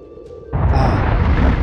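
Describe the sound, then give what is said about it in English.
A sudden explosion in the middle of a camp. After a quiet opening, a loud, low, heavy boom breaks in and carries on as a sustained, rumbling roar to the end. “Something exploded in the middle of the camp.”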